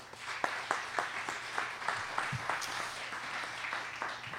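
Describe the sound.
Applause from a church audience welcoming a guest speaker: steady, fairly faint clapping from many hands, with a few sharper claps standing out and no voices over it.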